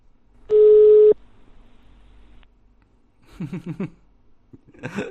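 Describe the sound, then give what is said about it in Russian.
A single short, steady telephone tone sounds once while a number is redialed, followed after a quiet pause by brief, faint voice-like sounds. “Так, вот этому давайте обиженному из «Деньги надо» еще раз наберем.”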